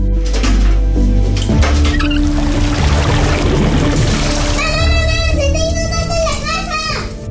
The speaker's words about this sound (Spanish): Así como el fregadero se tapa con restos